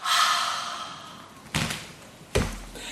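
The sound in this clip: A deep breathy exhale during a yoga handstand sequence, a soft hiss that fades over about a second. Two dull thumps follow, evenly spaced.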